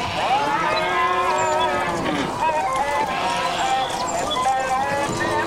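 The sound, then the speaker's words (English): A human voice imitates cattle mooing as an impression of a farmyard in Egypt, with long, drawn-out lowing tones that run steadily for over five seconds. “Now that was my impression of a farmyard in Egypt.”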